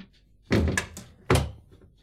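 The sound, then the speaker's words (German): Door being shut, heard as two dull, solid thuds roughly a second apart over a quiet background. “Mach die Tür zu.”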